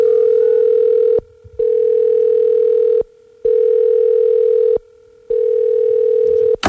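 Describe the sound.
A telephone line tone plays while a call is being placed: a steady, mid-pitched hum in four long stretches separated by short silences, ending in a brief crackle.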